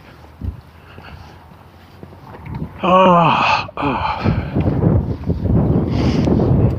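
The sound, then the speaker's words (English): Wind buffets the microphone as someone walks into a headwind outdoors. A rough, low, gusting rumble grows stronger in the second half, with a brief vocal sound near the middle. “Because I'm walking into the wind again.”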